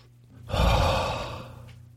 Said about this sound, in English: Let me take a deep breath.